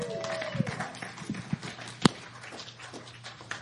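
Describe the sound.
Footsteps of a speaker walking up to a church pulpit: a few soft, irregular taps and one sharper knock midway, over a low, steady background hum.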